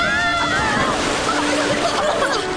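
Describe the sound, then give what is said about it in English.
A wave of water crashes over people at sea near a ship, a loud, continuous rush and slosh of surging water that fills the whole moment without a break. “Watch out. Here comes another wave.”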